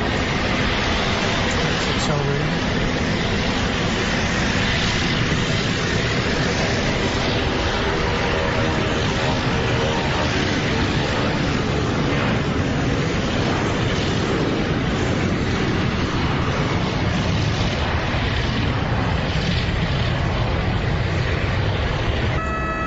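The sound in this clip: The aircraft carrying Senator John McCain departs Sky Harbor Airport with a loud, steady, rushing jet roar that holds for over twenty seconds.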